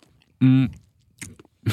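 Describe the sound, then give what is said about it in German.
People chewing sweet chips: a short voiced hum, then a couple of brief, crisp crunching bursts of eating. “Ja, es ist wirklich, ich habe vergessen, wie lecker das schmeckt. Mhm. Ich finde, es macht addicted. Ja, also der süße Chip irgendwie. Stimmt. Wir essen gerade”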